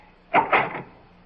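A door opens in a radio horror drama, heard as a brief two-part scraping clatter of about half a second, alone against a quiet background.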